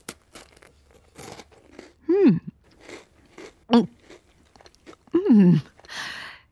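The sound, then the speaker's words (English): Biting and chewing a dark cake dusted with icing sugar: several crisp, crunchy bites and moist chewing sounds, broken by a few short voiced murmurs. “Yes, a dusting of icing sugar. Okay. Listen, I can't resist. I'm going to have a bite.”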